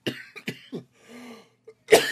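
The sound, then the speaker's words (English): A few sharp coughs, each a short harsh burst, separated by brief pauses, with the last one loudest. “There's that cough I was talking about.”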